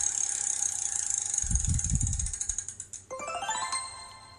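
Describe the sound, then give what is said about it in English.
A carnival prize wheel at a fair spins with a rapid ratcheting clatter of clicks. The clicks slow and space out as the wheel winds down, and a bright ringing tone follows near the end. “How do you want him to spin the wheel? Strong, medium, or soft? Strong. Let's go for it.”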